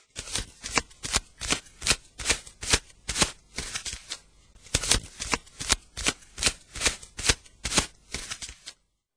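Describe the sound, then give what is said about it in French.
Cards are shuffled for a card reading: many crisp, quick riffling bursts in a steady rhythm, with no talk. “Donc, voilà, je vais tirer tes cartes.”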